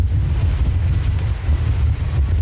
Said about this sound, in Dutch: het waait ongelooflijk hard